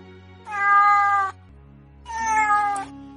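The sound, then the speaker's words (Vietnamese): A sand cat lying on someone's lap meows twice, two clear, fairly loud tonal meows separated by a short gap, over a low steady hum. “Mèo cát vốn thành thật nằm trên đùi Hà Ninh cũng kêu lên mèo mèo.”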